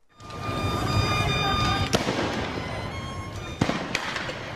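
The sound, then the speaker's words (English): Tear gas canisters exploding during a street protest in Caracas, Venezuela: two sharp, separate bangs punch through a continuous wash of noise, the second coming a couple of seconds after the first. “It shows a young man, a bandana tied around his face, playing violin while tear gas canisters explode all around him.”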